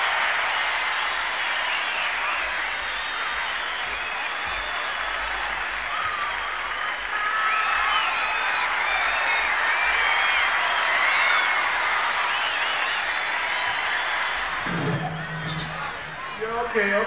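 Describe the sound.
Loud, sustained applause and cheering rise from a concert audience at a rock show, a dense continuous roar that holds steady throughout, with a voice briefly emerging near the end.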